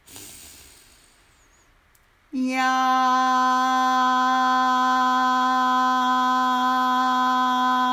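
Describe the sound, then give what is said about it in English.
A deep breath in during a guided affirmation, heard as a soft airy hiss that fades over about two seconds. A loud, steady harmonic tone then sets in and holds to the end. “And just say, I love you. Deep breath in.”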